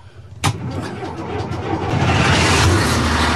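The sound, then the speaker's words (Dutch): An old diesel car engine starts after glow-plug preheating. A sharp click leads into cranking, and the engine catches into a rough, rumbling idle that grows steadily louder and fuller to the end. “Met een oude diesel? Ja, dat is echt een oude diesel. En dan wordt het voorgloeien maar een paar seconden?”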